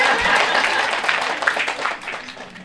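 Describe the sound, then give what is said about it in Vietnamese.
Brief audience applause during a Buddhist dharma talk: a short, dense patter of many hands clapping that tapers off toward the end. “Quý vị muốn ăn đồ ngon vỗ tay đi để bà không nấu nữa.”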